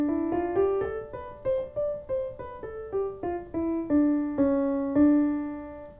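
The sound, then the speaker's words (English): A Dorian scale is played on the piano as a run of single, evenly spaced notes that climb and then step back down, each struck cleanly and left to ring briefly. “In this case, it's a Dorian scale, which if I played on the piano would sound like this.”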